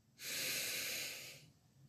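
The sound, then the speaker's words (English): A single deep, slow breath during a guided breathing exercise: a steady, airy rush that holds for over a second and then trails off, with no talking. “Whatever it is, I want you to breathe it out. So take a deep breath in for clarification, for purity.”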